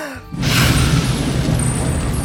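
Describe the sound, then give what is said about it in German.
A big jet of fire breathed from a fire-spitting character's mouth bursts in as a loud roaring whoosh after a brief quiet moment, then holds steady as a broad, rushing hiss to the end. “Und wieder kommt ein grosser Feuerstrahl aus ihrem Mund. Und es wird hell, wie wenn jemand das Licht angemacht hat.”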